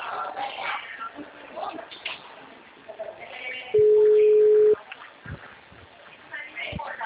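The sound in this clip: A single steady ringback tone sounds while an outgoing phone call is placed, lasting about a second on a narrow, muffled phone line, with background chatter before and after it.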